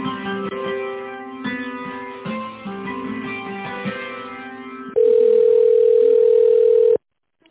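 A telephone line tone plays while a call is being connected: pulsing, broken tones for about five seconds, then a loud steady tone that holds for two seconds and stops abruptly.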